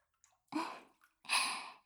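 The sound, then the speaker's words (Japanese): Water sloshing in a bathtub filled with hot water: two soft, splashy surges, each fading out over a fraction of a second, with faint small drips or movements between them. No voices are heard. “では、湯船の方に参りましょうか。さあ、ご主人様、こちらへどうぞ。お湯加減はいかがでしょうか？”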